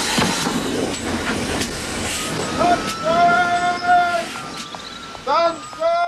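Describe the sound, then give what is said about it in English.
A train at a station makes a rumbling, clattering roll, with high, drawn-out metallic squeals and whistle-like tones sounding over it in the middle. Shorter tonal chirps follow near the end. “Stella runs to pick it up and hurriedly boards the train.”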